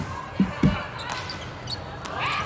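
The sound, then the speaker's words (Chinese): A volleyball serve that scores an ace, heard as two quick, solid thuds close together over steady background noise. “哦，球发的不错， 嗯，好球， 发球直接得分，15-18。”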